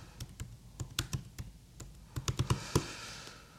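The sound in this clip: Typing on a laptop keyboard: a run of many crisp, quiet key clicks in an irregular rhythm with short pauses between them and a quick flurry toward the end.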